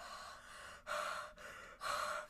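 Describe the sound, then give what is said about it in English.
A voice imitates a masked slasher villain's heavy breathing with a few slow, loud, raspy breaths, each a long hissing gust separated by brief pauses. “He doesn't even say anything to you. He's just like heavy breathing, like.”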